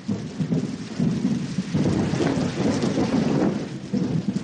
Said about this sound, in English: there's not a lot to do except listen to the thunder dropping 40,000 feet through clouds that spread out for miles.